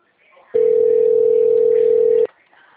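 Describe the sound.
A single steady telephone tone sounds while an outgoing call is placed. It holds one even pitch for nearly two seconds, then stops abruptly, with a faint background before and after.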